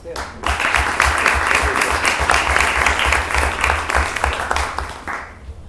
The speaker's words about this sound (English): So please give a big round of applause to Erin Conlin.